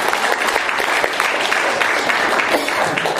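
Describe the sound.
Loud audience applause greets a guest at a gathering of co-workers: dense, steady clapping that runs evenly for about three seconds with no pauses.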